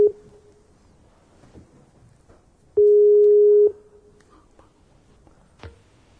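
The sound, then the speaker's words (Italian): A Skype call's connecting tone: a single steady mid-pitched beep held for about a second, with a brief matching blip at the very start, over faint background noise. “Oggi. Ci colleghiamo in Skype.”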